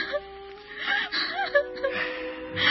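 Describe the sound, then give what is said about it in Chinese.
A woman cries sadly, breaking into whimpers, gasping breaths and wavering, moaning sobs in short uneven bursts. “别哭得那么伤心”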